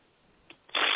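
A deck of therapy cards is shuffled: a couple of light taps give way to a dense, continuous flutter of cards sliding and riffling, fairly loud and with no talk.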